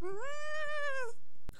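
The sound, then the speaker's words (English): A single drawn-out meow from a kitten sitting on a table, clear and tonal with rich harmonics, rising slightly at the start and holding steady before ending, heard alone and followed by a brief sharp click. “there's a cat on the table next to me”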